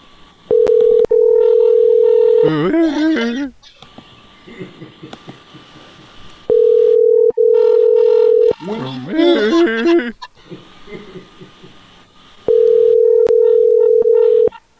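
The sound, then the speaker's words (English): An auto-tuned telephone ringtone plays. A steady electronic beep alternates with a warbling, pitch-corrected melodic phrase, and the cycle repeats: three beep segments and two tuned phrases. “This ringtone has been auto-tuned.”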